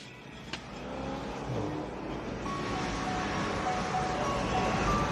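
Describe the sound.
A convertible car pulls up to a party house, with a steady low engine rumble and broad road noise that holds level throughout. No voices are heard.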